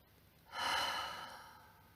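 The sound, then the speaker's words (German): A single deep breath taken during a seated relaxation exercise: one long, airy rush of air that swells quickly and then fades slowly, heard alone without talk. “Und atme tief ein durch die Nase und durch den Mund aus.”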